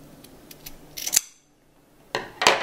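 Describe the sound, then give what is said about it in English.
Scissors cut one end of a cord with two sharp, bright snips separated by a brief quiet gap. Faint light ticks of handling come before the first cut. “Cut one end, and then you cut the other.”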